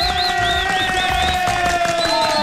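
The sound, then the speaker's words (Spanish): Applause and cheering from a crowd for children celebrating at a piñata garage party in Aranjuez: a dense, steady wash of clapping and crowd noise with bright whistling tones running over it throughout. “Listo, un aplauso, hombre, para los niños, hombre, que hoy están celebrando”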